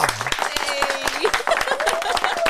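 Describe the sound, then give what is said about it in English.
Round of applause from a live audience at Paco's Place, quick scattered claps running under speaking voices for a couple of seconds. “Ladies and gentlemen, live at Paco's Place, big round of applause, Carissa!”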